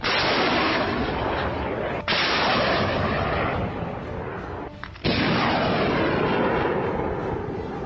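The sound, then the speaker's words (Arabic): Katyusha rockets launching in a frontline combat salvo, each firing a loud, abrupt roaring rush that sustains before the next cuts in, a few harsh blasts in succession with no voices. “سوف يتم الآن إطلاق 6 صواريخ الكاتوشة على الجمعات العدو السعودي ومزدقته في غربية السديس.”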